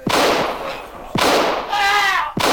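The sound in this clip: Pistol shots: three loud, sharp bangs about a second apart, each followed by a long, rumbling decay.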